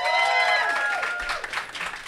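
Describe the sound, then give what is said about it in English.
An audience cheers and applauds to vote for a contestant in an onstage competition. Whoops and shouting voices rise loudest at the start, then settle into a mix of clapping and crowd noise that fades slightly toward the end. “And if you think that Tom wins, cheer now.”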